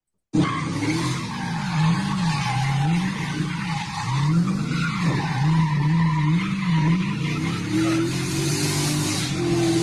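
A car drifting sideways, its loud engine revving up and down repeatedly over continuous tire squeal. The roar stays steady and intense for the whole stretch.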